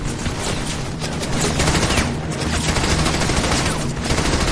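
Heavy gunfire in a World War II battle in Normandy, France, in June 1944. Dense, continuous rattling fire that never lets up, loud and harsh across the whole stretch.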